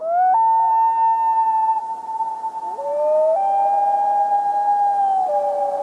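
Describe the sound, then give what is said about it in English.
Sustained, mournful wail of a common loon: a clear tonal note with overtones that holds steady, then shifts between pitches in abrupt steps. It continues for several seconds with no other sounds. “That's the whale call of the common loon.”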